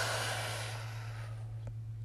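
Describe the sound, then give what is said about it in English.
A deep breath is taken in through the nose and out through the mouth. One long, airy breath sound fades away after about a second, leaving a steady low hum. “Deep breath in through your nose and out through your mouth.”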